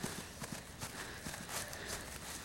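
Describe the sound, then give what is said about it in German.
Faint footsteps walk along a paddock fence, a soft, uneven run of many steps on the ground against a light background hiss. “Ich gehe jetzt einmal um die ganze Koppel am Zaun entlang.”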